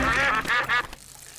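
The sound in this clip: Three quick duck quacks in a children's cartoon, bright and nasal in an even rhythm, followed by quiet.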